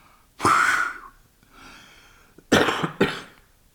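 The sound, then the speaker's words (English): A person coughs in a few harsh bursts: one strong cough, then a softer breathy stretch, then two quick coughs close together. There is no talk around them. “didn't intend to cough.”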